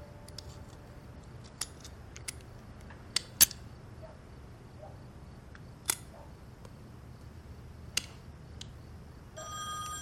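A telephone starts ringing only at the very end with a short burst of bright electronic tone. Before it, scattered sharp clicks and taps sound over a quiet background.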